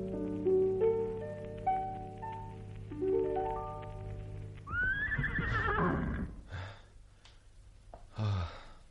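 Horse neighing: soft melodic music plays for a few seconds, then a loud, quavering whinny rises and falls away.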